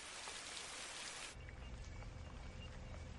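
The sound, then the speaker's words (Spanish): Steady rain falls at night beside the door of a house, a dense continuous hiss that shifts partway through to a heavier, lower patter. “De noche, Casey está acurrucada junto a la puerta bajo la lluvia.”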